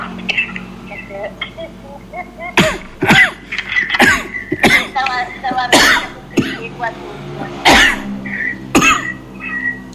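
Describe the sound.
Coughing from an illness: many harsh, loud coughs and throat-clearing bursts come in an irregular run, mixed with voice sounds between them.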